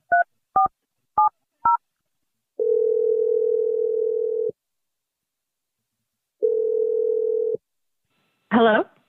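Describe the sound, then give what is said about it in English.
Dialing an outgoing telephone call: four short keypad tones in quick succession, then two long, steady, low ringback tones separated by a pause. “Here we go. I'm going to dial her number right now.”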